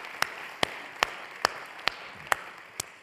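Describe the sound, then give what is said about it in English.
Hand claps at a church service as first-time guests are welcomed: seven sharp, evenly spaced claps in a steady rhythm over a faint, quiet background. “Can we just put our hands together and welcome our first-time guests?”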